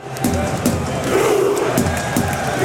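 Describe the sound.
A loud crowd roars and cheers at the Norwegian World Cup squad's homecoming in Oslo, a continuous, full-bodied mass of shouting voices with repeated surges throughout.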